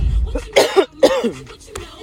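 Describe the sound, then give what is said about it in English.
A person coughing, a few short, harsh bursts that come close together and stand out loud against a quiet background. “I'm sorry, y'all. I just definitely coughed.”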